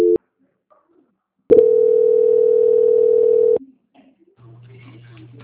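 Telephone tones during a call transfer: a short beep, a pause, then a steady mid-pitched tone held for about two seconds, followed by a fainter low hum.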